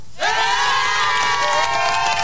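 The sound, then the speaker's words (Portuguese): Audience applause and cheering rise suddenly and hold as a loud, continuous crowd roar with a strong tonal, shouting edge. “Um jeito é só aplaudir, né? Vamos bater palma então aí pra Tuti, vamos, galera?”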